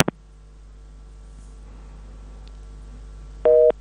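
A telephone line after a caller's call drops: a couple of sharp clicks at the start, a quiet hum of line noise, then a single short, steady busy tone near the end.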